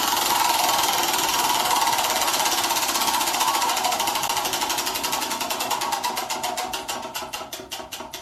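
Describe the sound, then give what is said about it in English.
A spinning prize wheel rattles with rapid ratcheting clicks, a dense, loud buzz of ticks that gradually slows until the individual clicks become distinct near the end. “So I'm gonna spin the wheel.”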